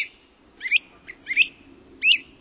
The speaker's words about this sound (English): Bright yellow prairie warblers trill atop young pines. Great crested flycatchers call out overhead.